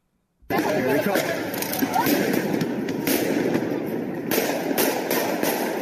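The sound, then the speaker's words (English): Gunfire as two police officers were shot in Louisville: many sharp, rapid bangs in irregular bursts over a constant noisy hubbub, with people's voices heard throughout. “what happened last night in Louisville, where you had two cops shot. This is what it sounded like as that happened. Play clip one.”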